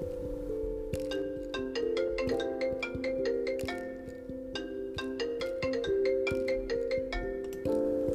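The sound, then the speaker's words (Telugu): A phone ringtone plays while a call to a friend waits to be answered, a bright electronic melody of quick repeated notes that continues steadily, with no voices. “Phone open చేసి ఫ్రెండ్స్కి call చేద్దాం అనుకున్నా”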